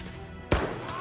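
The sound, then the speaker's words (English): A single gunshot rings out in the tactical video game Jagged Alliance 3, aimed at a soldier's groin: one sharp, loud crack with a brief decaying tail over low background ambience. “Alright, we got a groin shot. Goon was attacked by Igor. He's holding his groin. He's almost dead.”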